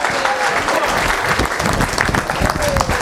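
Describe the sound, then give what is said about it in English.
Dense, steady audience applause welcoming a speaker onto the stage at an event in San Diego, a loud continuous wash of clapping with crowd noise throughout. “Help me give a warm welcome to Dr. Peter Glidden. Come on up.”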